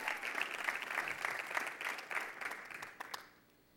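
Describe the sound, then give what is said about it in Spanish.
Applause from an audience at a religious service, offered to God during a sermon: dense, steady clapping of many hands holds for about three seconds, then thins to a few last claps and fades out. “Dale un aplauso a Dios.”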